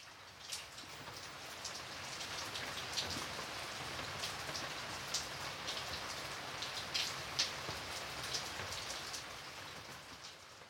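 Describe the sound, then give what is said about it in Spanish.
Rain falls steadily over Santiago as a soft, continuous hiss with scattered faint patters of drops, quiet and unbroken throughout. “esa noche de deliciosa intimidad, cuando llovía, llovía, llovía sobre Santiago.”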